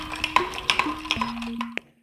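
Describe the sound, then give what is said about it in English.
Ice clinks against a glass as Persian sharbat with grated cucumber and fresh mint is stirred, many light, bright taps over a low ringing hum, stopping abruptly at the end. “That, my friends, is pure audio refreshment. Otherwise known as the sound of the grand dame of Iranian cooking in the U.S. making a classic icy Persian treat. It's called sharbat.”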